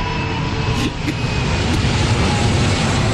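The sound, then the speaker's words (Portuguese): An airplane sound effect on a TV game show: a loud, steady roaring engine whoosh with broad noisy rumble that continues through the whole moment. “Esse é o avião do salário mínimo. Passou!”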